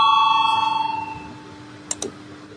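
A bell rung to call a vote in a legislative chamber: a sustained ringing tone that fades out over about a second, then two sharp clicks after a short pause.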